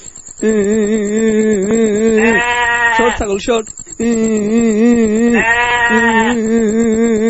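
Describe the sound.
A goat bleats in long, wavering, loud calls, two drawn-out cries separated by a brief break, each with a shaky, quavering tone.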